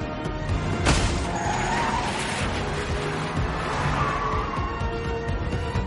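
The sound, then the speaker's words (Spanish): A minivan in an action film ploughs through several newspaper dispensers, with engine and tire noise throughout, a sharp crash near the start and another clattering impact a little later. “Desactiva el sistema anticolisión de un monovolumen. El coche arrolla varios dispensadores de periódicos.”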